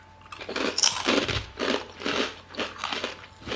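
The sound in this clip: Someone bites into and chews a crunchy, fish-smelling snack, with loud, crackly crunches recurring in a steady rhythm of several chewing bursts and no talking.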